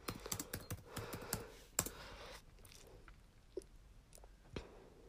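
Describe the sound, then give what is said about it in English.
Typing on a computer keyboard: a quick burst of crisp key clicks that thins into a few scattered, sparse taps. The sound is fairly faint and occurs without talk. “we also have an Instagram. Oh my goodness, I cannot type.”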